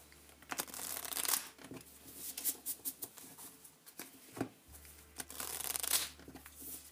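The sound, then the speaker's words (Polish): A deck of tarot cards being shuffled: many soft, papery riffles and flutters come in uneven bursts, quiet and with no talk. “Także zaczynam od przetasowania kart wskazówek.”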